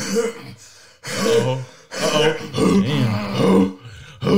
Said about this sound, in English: Now I just gotta clear my throat sometimes, make sure my decibels is loud and clear